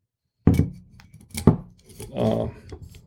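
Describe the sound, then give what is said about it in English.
Cutting the foil on a wine bottle with a foil opener: a couple of sharp clicking snips followed by a short scraping rub of metal against foil. “All right, so let's go ahead and open up this bottle of wine. And I've got this wine”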